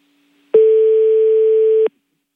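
Telephone tone after a call was cut off: a single steady pure tone at one pitch lasting just over a second. It starts and stops abruptly and is heard alone.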